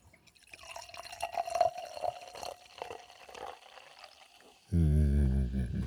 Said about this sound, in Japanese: ワインによって注ぐ速度を変えてる気がするな。早速注いでいただきましたけどね。